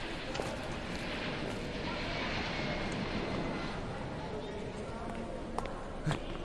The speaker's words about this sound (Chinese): 停机坪上两架波音737-800， 还铺了红毯，好像是专机呀。